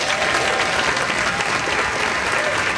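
Applause from a concert audience in a park, a dense, steady wash of many hands clapping that holds at an even level throughout without pause.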